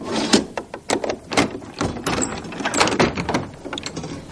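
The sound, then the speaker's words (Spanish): A door with a small window being opened, giving a series of clunks, knocks and rattles of latch and frame that come in uneven bursts throughout. “La hermana María corre hacia la puerta. Ve a Matil por la ventanilla y le abre.”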